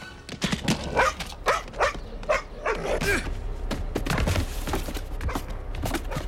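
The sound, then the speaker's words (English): A dog barks in a quick series of sharp, loud barks over the first few seconds, then the barking gives way to a steady background rumble. “Back on the road, Sid's dog throws Buzz under a car.”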